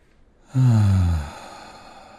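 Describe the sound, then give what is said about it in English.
A single deep, voiced sighing exhale during a guided relaxation, low and steady for under a second before fading to near quiet. “So take a deep breath and let it go.”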